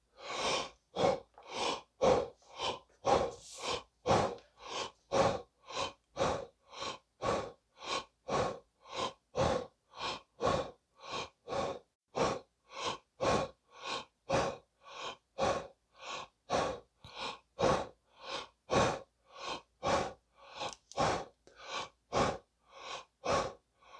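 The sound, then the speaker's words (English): Hyperventilation breathing exercise: many rapid, deep, forceful breaths, each a rushing inhale and exhale, repeating at a fast, even rhythm throughout without any talking. “as we repeat our hyperventilation exercise, starting now”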